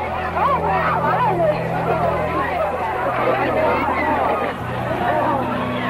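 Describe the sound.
Hostile crowd yelling and jeering at a Black student barred from Little Rock's Central High during 1957 desegregation, a dense babble of many overlapping shouting voices that stays loud and steady throughout.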